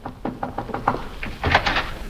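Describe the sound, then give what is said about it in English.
Door sounds in a house as someone goes to answer it: a quick run of short, dull knocks and thumps, then a slightly louder cluster of clatter near the end. “I'll answer the door.”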